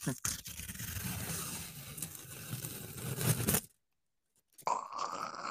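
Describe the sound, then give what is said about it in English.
Plastic film ripped off an eyeshadow palette gives a continuous crinkly tearing and crunching for about three and a half seconds. It breaks off into silence, then a voice follows. “I'm ripping off the plastic layer on my eyeshadow palette.”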